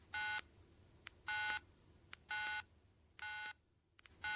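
Telephone keypad dialing tones: five short, evenly spaced touch-tone beeps, the last one cut off, sounding alone and fairly faint.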